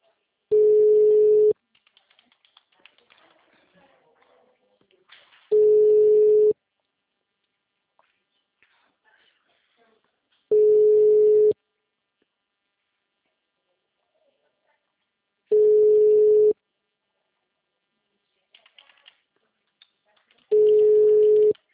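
An unanswered outgoing phone call: the ringback tone sounds five times, each a steady low buzz about a second long, repeating every five seconds, with faint noise in the gaps.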